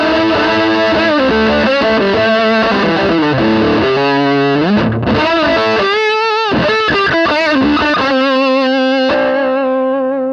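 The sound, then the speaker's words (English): Fuzz-drenched electric guitar played through a Park Fuzz pedal voiced like a Big Muff, thick and saturated with long sustain. Loud, buzzing chords and ringing notes run continuously with no talking, briefly thinning near the middle before the heavy tone returns. “I forget which Big Muff it was modeled after, but it sounds good, so it doesn't really matter. And I also use the park fuzz.”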